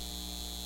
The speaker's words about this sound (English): This is the sound of a data center taking your water and driving up your utility bills.